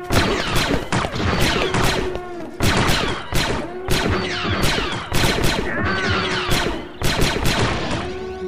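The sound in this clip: Blaster fire in a sci-fi firefight, laid down as covering fire against enemy troops: many loud, sharp cracks and zaps in dense bursts that continue throughout.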